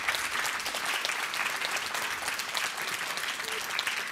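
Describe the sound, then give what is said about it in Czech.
Audience applause for a woman honoured for years of karma yoga and running children's programs. Steady, dense clapping continues evenly at a moderate level for the whole stretch, with no voices over it. “A round of applause for all the karma yoga which she did with the kids.”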